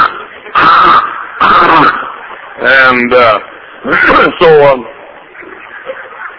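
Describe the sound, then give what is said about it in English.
A human voice imitates a nervous Chihuahua snorting, producing a series of short, harsh, throaty snorts and cough-like bursts separated by brief pauses. “And the Chihuahua and I have one thing in common. The Chihuahua was always snorting. And but he was worse than I. He had to croup all the time. Every time he'd get nervous, he'd go,”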